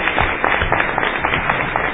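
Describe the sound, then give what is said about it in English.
Audience applause at a meeting after a guest is thanked: dense, steady clapping that fills the whole clip at an even loudness, with no clear voices. “Let's give Mao a round of applause.”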